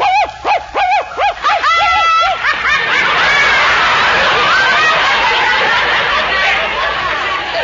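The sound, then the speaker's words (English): A human voice imitates a dog during a mock acting tryout, giving a quick run of many short, yapping bark-like bursts, followed by a steady, noisy wash of babble and laughter-like sound. “Now you hear the dog.”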